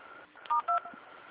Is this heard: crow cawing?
no

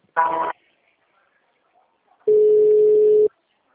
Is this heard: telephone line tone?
yes

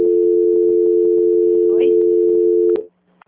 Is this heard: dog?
no

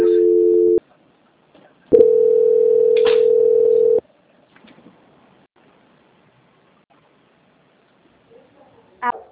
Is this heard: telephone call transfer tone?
yes

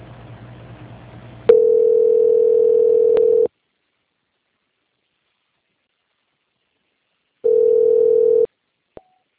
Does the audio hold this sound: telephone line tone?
yes

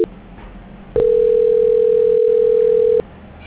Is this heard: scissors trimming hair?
no

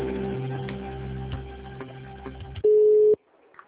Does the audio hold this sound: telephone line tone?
yes

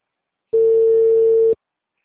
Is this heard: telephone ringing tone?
yes

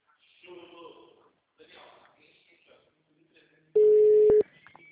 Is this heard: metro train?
no

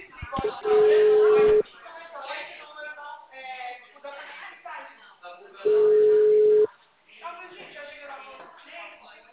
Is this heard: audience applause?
no

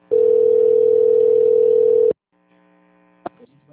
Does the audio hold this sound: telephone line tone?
yes

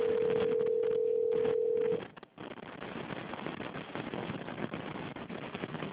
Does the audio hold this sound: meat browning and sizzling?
no

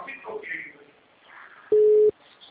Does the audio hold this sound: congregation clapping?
no

